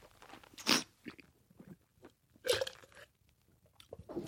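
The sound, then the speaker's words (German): Pinot wine is sipped and slurped during a tasting, with two sharp, hissing slurps and small, faint mouth and swallowing sounds between them. “Ach, ich trinke das einfach mal.”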